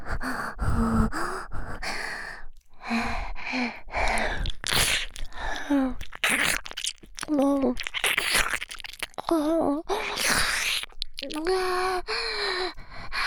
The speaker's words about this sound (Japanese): ほら、舐めていきますよ。